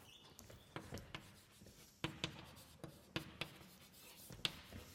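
Handwriting: a pen scratches out a math formula in many quick, faint, uneven strokes and taps, with no talk.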